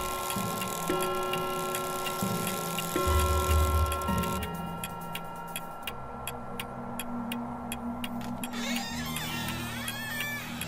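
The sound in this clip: A clock ticks at 3 a.m. in a steady, even run of crisp clicks that starts partway through and lasts several seconds, set over a continuous low droning hum.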